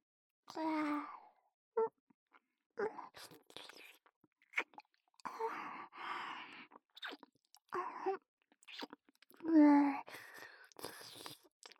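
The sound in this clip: Close, wet mouth sounds of eating come in many short bursts of chewing, smacking and crunching, mixed with soft voiced sighs and murmurs.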